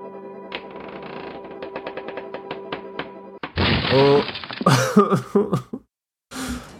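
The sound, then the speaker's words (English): A heavy wooden shelf collapses in a video game, a sudden loud crash cutting in after a stretch of tonal game music with light ticks, followed by a voice talking. “Oh dear, the shelf collapsed. All that heavy wood crushed your spine completely.”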